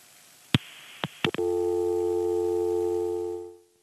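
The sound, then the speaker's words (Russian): A dropped phone call: a few sharp clicks on the line, then a steady, unbroken electronic tone that holds for about two seconds before cutting off. “Сорвался звонок.”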